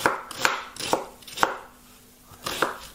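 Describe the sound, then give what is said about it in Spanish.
A knife chops sweet new onions in several sharp, uneven strokes, each a crisp thud, fairly loud and with no voices. “Vamos a picarlo aquí así.”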